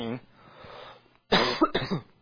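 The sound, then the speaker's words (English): A short, rough throat clearing during a sermon comes after a brief bit of voice and a quiet pause, loud and gritty for under a second. “Got a frog in my throat.”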